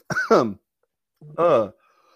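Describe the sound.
Two hoarse, voiced coughs from someone choking after something went down the wrong pipe. Each is a short, strained burst, with a clear pause of about a second between them and no other sound.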